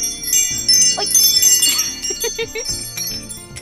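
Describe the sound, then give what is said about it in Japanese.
A wind chime instrument is played, with bright metallic bell tones ringing in layered, overlapping notes. They are loud at first, then gradually thin out and fade. “ウィンドウベルをいくよ”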